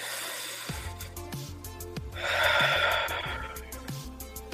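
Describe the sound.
A slow inhale taken during a relaxing breathing exercise swells as a soft, airy rush in the middle, then fades over a low, steady pulsing background.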